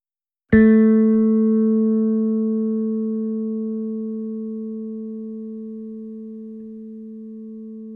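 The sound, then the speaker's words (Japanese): A single plucked bass string sounds one basic note. It has a sharp attack and a clean, almost pure tone, and it rings alone and fades slowly over about seven seconds. “弦を弾くのを聴いててもらいたいんだ。じゃあまず一番基本の音から。”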